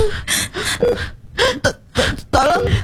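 A child with chest pain gasping and struggling for breath, making strained, moaning breaths and whimpers that come in several loud, uneven bursts separated by brief pauses.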